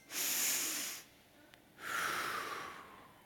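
A group breathing together during a guided devotional: two long, airy, hissing breaths separated by a short quiet pause, each swelling and fading smoothly, soft and without speech.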